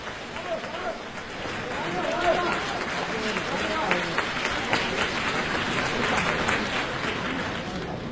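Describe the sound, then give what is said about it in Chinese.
Audience applause at a crosstalk comedy show in Beijing: sustained, dense clapping from a crowd, with voices talking over it at the start and in places. “谢谢大家掌声。 对， 掌声对演员是鼓励”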